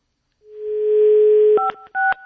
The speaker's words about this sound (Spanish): no voy a contestar, voy a marcar. Hay que marcar al 5